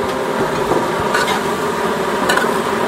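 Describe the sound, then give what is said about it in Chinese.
Basil that has already been passed through oil is stir-fried in a wok, giving a steady, loud sizzle with a few scraping strokes against the pan and no voices. “这也是很简单的一个拌炒一下。”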